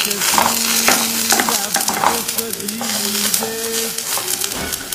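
Apples fry with a loud, steady sizzle in a pan while a wooden spoon stirs them, its scraping strokes repeating throughout the hiss.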